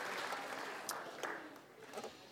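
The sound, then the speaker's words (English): An audience applauds the worship team at a worship service, a faint, soft wash of many hands with a few slightly sharper claps standing out here and there. “let's give a little round of applause of appreciation to the worship team for leading us.”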